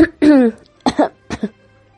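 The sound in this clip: Deliberate dry coughing from a woman interrupting a conversation, a short throaty cough followed by two quick double coughs, loud and close with nothing else behind them.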